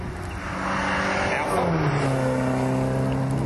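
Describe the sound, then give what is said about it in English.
The engine of a 1970 two-litre Alfa Romeo Alfetta GTV with bumpers gives a droning mechanical note that dips in pitch partway through, then holds at a lower, steady growl. “That was a 2-litre Alfetta GTV, Alpha GTV. Old one. With bumpers or without? With bumpers. Why? 1970 model.”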